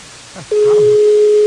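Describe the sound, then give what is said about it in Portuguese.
Telephone busy tone after a dropped call during a prank phone call. A brief murmur comes first, then a single steady pitched tone starts abruptly and holds loudly to the end. “Alô? Alô, a ligação caiu”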